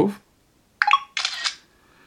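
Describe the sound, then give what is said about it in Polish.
A phone camera app takes a photo with two quick shutter bursts, a short click and then a longer, brighter swishing snap. A brief low thump comes just before them. “Ja w tym momencie spróbuję zrobić zdjęcie jeszcze raz z większej wysokości, jakieś 30 cm.”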